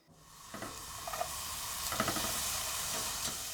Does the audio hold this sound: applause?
no